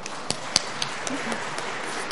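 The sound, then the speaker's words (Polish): Applause greets a professor of medical sciences introduced for a lecture on medicine restoring vision. Steady, dense clapping runs throughout, with a few sharper individual claps standing out. “Wielkie brawa, zapraszamy.”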